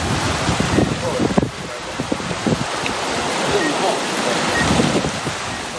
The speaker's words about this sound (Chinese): 南定岛周边水下暗礁无处不在，而且风大浪急。